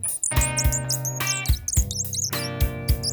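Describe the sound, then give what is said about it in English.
A tufted titmouse calls in many quick, high chirps that repeat in clusters over steady tonal music with low plucked notes. “Whoa! It's a tufted titmouse.”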